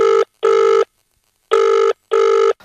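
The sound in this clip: A telephone ringing on a call with a loud, steady-pitched electronic tone that sounds in two double-ring pairs separated by a silent gap, with no voices.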